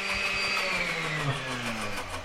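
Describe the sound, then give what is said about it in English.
Blender motor whirring as it blends a batch of mussels flown in from Petersburg for shellfish safety testing; a steady, continuous mechanical drone with slightly wavering pitch that runs through the whole clip. “The batch of mussels in the blender right now is from Petersburg, a community 90 miles east of Sitka.”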